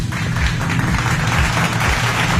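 A round of applause for a caller who played a word game on a Tamil FM radio station. Brisk, continuous clapping runs over a heavy, rumbling low-end backing.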